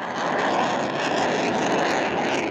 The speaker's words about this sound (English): the one you just heard was the first flight of the first F-16 Block 70 built at Lockheed Martin's Greenville site